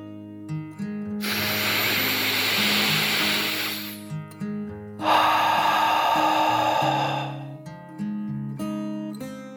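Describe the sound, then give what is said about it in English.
A dragon's deep, contented breath in and then out, heard as two long, airy rushes of breath with a short gap between them, over soft background music. “With a contented sigh, Dakota took a deep dragon breath in and out.”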